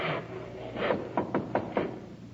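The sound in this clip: Hammer blows on wood while a chair is being built in a one-room workroom: a few quick knocks in close succession over a low steady hum.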